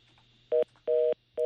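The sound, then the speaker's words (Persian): Telephone busy tone after a dropped call, heard as three steady beeps with short gaps over a faint line hum. The first beep is shorter than the other two. “با عرض معذرت فکر کنم تماس ما با آقای عابد نور قطع شد”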